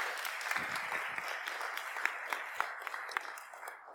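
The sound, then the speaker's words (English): Audience applause welcoming a speaker to a morning talk, many hands clapping in a continuous, fairly quiet patter for the full four seconds, with a few sharper claps standing out. “So can we give him a big welcome and do our best to honour him? Dan, everybody.”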